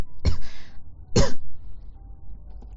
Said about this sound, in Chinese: 一直在咳嗽